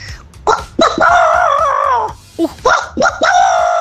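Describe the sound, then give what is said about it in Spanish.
A woman imitates a rooster crowing with her voice: two loud, drawn-out, wavering crows with a short break between them, heard alone without other talk. “ahí va mi gallo”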